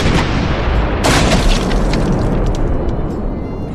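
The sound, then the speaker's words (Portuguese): A cannonball explosion strikes a small boat during a tabletop role-playing game: a dense, loud roaring rumble throughout, with a sharper burst about a second in, then a long noisy wash. “E desta vez veio uma bola de canhão, fez uma onda, a Meg jogou para um lado, a segunda bola de canhão atingiu o meio do barquinho de vocês.”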